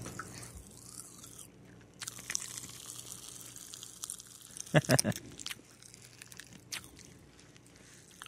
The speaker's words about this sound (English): So we've got fruit punch flavored Pop Rocks. I'm scared. I've never had real Pop Rocks before. All right, let's give these things a shot here.